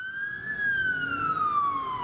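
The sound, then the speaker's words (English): An emergency vehicle siren on the road, a loud pure wailing tone that climbs briefly, then slowly glides downward in pitch, over a low rumble of traffic. “Being too close to sirens on the road?”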